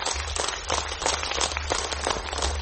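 Applause for a young poet at a poetry evening: a dense, even patter of many hands clapping that continues steadily throughout without pause.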